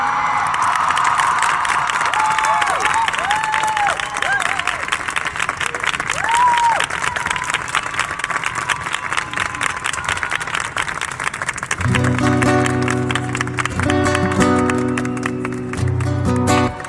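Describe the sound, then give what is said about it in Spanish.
Audience applause and cheering fill a live evening event as a songwriter is introduced, with whistles cutting through early on. Steady and loud throughout, the ovation continues as music starts beneath it near the end. “quiero pedirle un aplauso”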